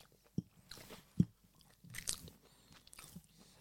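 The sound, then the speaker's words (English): Crisp bites and chewing on a party snack from a supermarket Christmas selection, a few faint crunches spaced out with soft mouth sounds between, quiet overall and without talk. “I feel a little bit guilty about eating them, but they are usually delicious, but I've never really had this. So let's tuck in and see what you think.”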